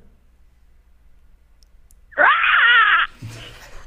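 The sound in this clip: A person imitates a pterodactyl call with one sustained, harsh, high-pitched screech lasting under a second after a quiet lead-in, followed by a brief spoken word.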